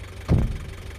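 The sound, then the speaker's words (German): A Berlin taxi's car engine idles with a steady low rumble, briefly swelling louder near the start before settling back into an even, continuous hum. “Taxe. Können Sie mich nach Siemensstadt fahren?”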